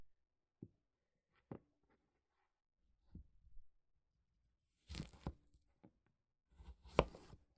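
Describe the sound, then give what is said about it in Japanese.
A knife cuts through a raw pumpkin: a few dry, crunchy cuts and tearing snaps, sparse and faint at first, then denser crackling bursts toward the end, with no talk. “かぼちゃが大根や人参を切るみたいな感じで切れちゃいます。”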